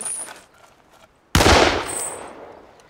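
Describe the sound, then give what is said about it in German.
A single loud gunshot, a sharp crack that rings out and decays over about a second, following a quiet stretch of faint rustling. “Sie hätten wirklich nicht schießen müssen.”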